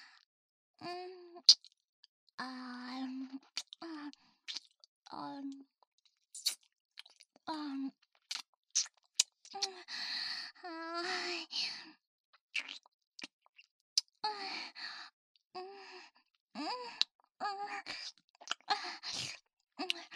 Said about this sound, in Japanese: ほら、先輩からもペロペロしてきてください。